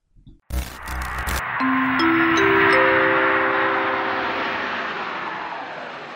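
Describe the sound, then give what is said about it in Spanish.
A radio show's closing jingle opens with a short clattering burst, then a jet-plane roar swells with sustained tones layered over it and slowly fades out. “vámonos con la cortina para despedirnos del programa ya”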